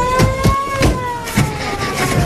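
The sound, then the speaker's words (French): A car drives off along a road: a steady, fairly loud engine drone with a sustained humming tone and a few low thumps recurring at irregular intervals, with no voices. “La voiture qui triomphe et prend la route vers le nord-ouest, en direction du département de l'Allier.”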